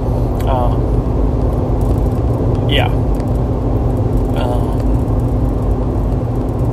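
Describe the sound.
A car driving on a road produces a steady, loud, low rumble that continues unbroken throughout.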